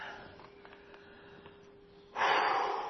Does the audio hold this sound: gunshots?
no